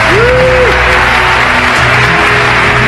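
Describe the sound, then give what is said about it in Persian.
An audience claps loudly in a dense, steady wash of applause that holds at an even level throughout. “هر چقدر بخشلت اونجا دست بزن.”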